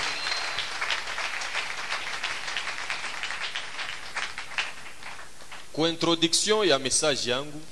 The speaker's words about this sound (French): Est-ce que nous pouvons acclamer pour la parole de Dieu?